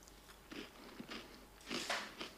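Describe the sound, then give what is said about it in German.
Crunchy biting and chewing of a crisp, slightly burnt homemade Christmas cookie. A few faint, crackling crunches come in an uneven rhythm, with no talk over them. “Schmeckt schon ein bisschen verbrannt. Hm. Ja, ist halt so ein bisschen knusprig.”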